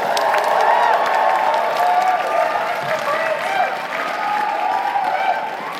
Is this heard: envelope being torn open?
no